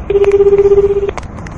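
A telephone ringback tone plays while a caller waits for an answer. One steady, mid-pitched ring with a fast pulsing warble lasts about a second, then fades to low background noise.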